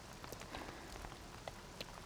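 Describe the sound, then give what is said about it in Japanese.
Steady rain at year's end, a soft, dense patter of drops on surfaces with scattered sharper droplet taps, even and faint throughout, with no voices. “雨は嫌いではないけれど、年の瀬くらい晴れてくれてもいいのにね。”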